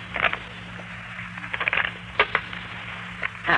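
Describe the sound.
Fortune-telling playing cards being shuffled by hand: several crisp, papery riffling bursts with short pauses between them, fairly quiet and alone.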